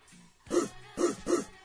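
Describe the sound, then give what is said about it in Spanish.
A person imitating a dog barking: three short, hoarse, mid-pitched woofs in quick succession, then the start of another at the end. “Estaba haciendo el perro, en el otro cuarto.”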